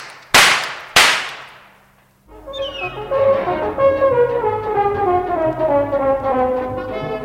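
Two sharp gunshots fired in quick succession by customs police, each a loud crack with a ringing decay, followed by music.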